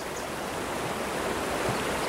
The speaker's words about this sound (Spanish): el río celeste llama mucho la atención de los visitantes por su color y su bella cascada